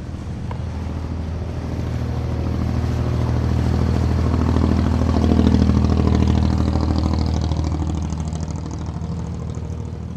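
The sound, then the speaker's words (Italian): Roaring engine of a flat-bottomed fiberglass motorboat running over a shallow gulf, a loud, continuous low drone that swells toward the middle and eases slightly at the end, with no talk. “Il rombo del motore è assordante, le botte dello scafo sulle onde fanno temere un naufragio da un momento all'altro.”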